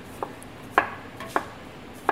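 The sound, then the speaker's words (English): A knife slices fennel thinly on a cutting board in four crisp, separate strokes, each a short sharp tap, set against quiet background. “Now I will add the fennel as well. Again, I will slice the fennel thin,”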